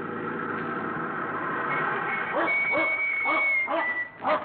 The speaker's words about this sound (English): That dog dangerous?